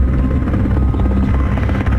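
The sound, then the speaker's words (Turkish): Helicopters fighting a forest fire at first light, drawing water from a nearby pond, produce a loud, continuous, throbbing rotor drone that stays steady throughout. “İşte helikopterler devreye girdi sabahın ilk ışıklarında. En yakın göletten su aldılar ve alevlerle mücadeleye devam ettiler.”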